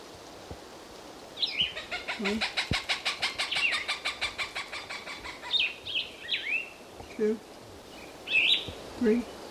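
Calls of a plumbeous bird with a Cooper's hawk in the background: a fast, rhythmic run of many harsh, pulsing notes, then several short, separate high calls.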